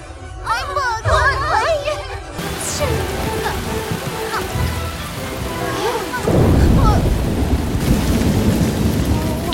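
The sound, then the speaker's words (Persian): Voices sound briefly at the start of a thunderstorm, then heavy rain hisses steadily and a deep, loud rumble of thunder builds through the second half. “الان طوفان میشه.”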